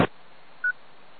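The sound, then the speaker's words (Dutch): A single short telephone keypad tone sounds while dialing a landline number: a brief, clean electronic beep after a faint click, then quiet line hiss. “Ik moet gewoon even een vaste nummer bellen hier.”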